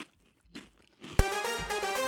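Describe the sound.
Crunching and chewing of food while it is tasted, a sharp crunchy bite followed by loud, continuous chewing to the end.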